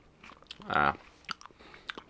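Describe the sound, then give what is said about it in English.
Crunchy chewing of a dried strawberry: a few crisp bites and moist mouth clicks spread over two seconds, with a brief hummed voice sound in the middle. “Strawberry, but I'm going to eat this to get the banana taste out of my mouth.”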